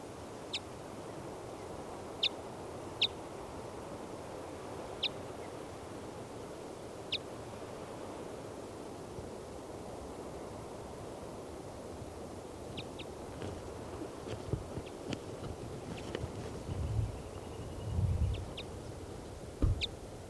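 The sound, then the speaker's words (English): A female bird calls near her nest at the top of a 40-foot lodgepole pine in a clearing. She gives faint, brief high notes at irregular intervals over a steady background hiss, and a few low thumps come near the end. “So recording, the female is off the nest in the top of a 40-foot lodgepole pine in the middle of a clearing. This is the female.”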